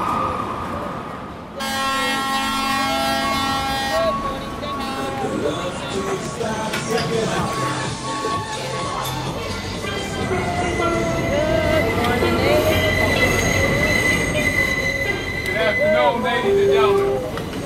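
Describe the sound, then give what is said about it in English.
A subway train on the Q line in Queens, New York, rumbles continuously. A tonal signal sounds near the start, and high metallic squeals rise over the rolling noise later on. “The Q Train. Q für Queens.”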